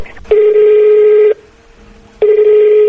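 Telephone ringback of an outgoing call placed by a radio station to a district hospital head: two long, steady, buzzy ringing tones separated by a pause of about a second.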